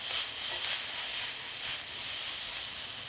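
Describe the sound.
Carrots and peppers sizzling in a pan as they are stirred, a steady bright hiss that swells and eases in a regular rhythm, with no talking.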